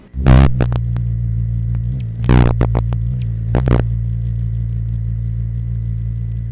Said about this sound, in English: We are in peak hummingbird migration season in Indiana and other Midwestern states, and that's the sound of the ruby-throated hummingbird. Their wings flap up to 80 times a second.